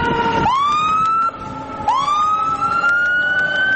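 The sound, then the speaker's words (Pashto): Ambulance siren from an emergency hospital in the middle of the Gereshk bazaar: a loud, continuous wail that sweeps upward in pitch twice and holds high between the rises. “د ګرشک د بازار په منځ کې د ایمرجنسي روغتون ټونس ډول امبولانس درې ټپیان راوړل”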